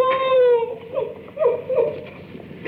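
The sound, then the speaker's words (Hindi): A woman crying: a drawn-out, wavering wail gives way to several shorter, broken sobs, with no talk. “ओहो, तो तू रोती क्यों है?”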